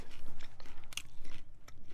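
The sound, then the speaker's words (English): Crunchy chewing of massaged kale, a rapid, even run of many moist bites and chews in a steady rhythm, fairly loud and close, with no talking. “Okay, now this one. This one is massaged. Massaged kale. Massaged kale.”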